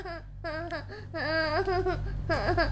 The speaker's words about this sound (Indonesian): Sudah ya, jangan nangis.